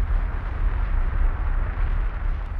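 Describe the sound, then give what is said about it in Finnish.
Explosion of the Chernobyl nuclear power plant after the reactor's graphite moderator caught fire: a deep, continuous roaring rumble, loud and steady throughout, with no voices. “Ydinreaktorin hidasteaine grafiitti syttyi palamaan. Sitten ydinvoimala räjähti.”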